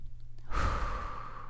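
A single long exhale during a guided meditation, a soft, breathy rush of air that starts abruptly, then slowly fades away.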